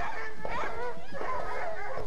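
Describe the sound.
A dog yelps and whimpers at people passing by, with wavering, high-pitched cries that run almost continuously for about two seconds.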